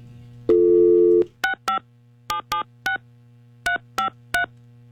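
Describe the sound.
Telephone dialing tones: a steady tone of under a second, then eight short keypad beeps in uneven groups of two and three, loud and clear with no talking.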